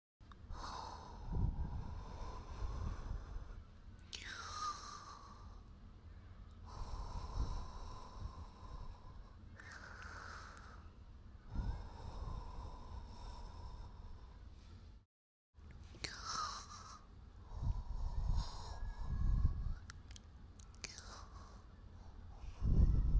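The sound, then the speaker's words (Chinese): Breathy puffs of air blown closely into an ear, several soft hissing exhalations with low buffeting, quiet and intimate, separated by short pauses. “咦，我记得，亲爱的，耳朵很敏感的，要不吹气把它弄醒？”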